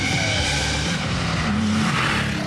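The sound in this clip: A car with a 3.2 litre engine and a non-original exhaust and intake accelerates with a loud, continuous, throaty engine roar that holds steady throughout, with no talk.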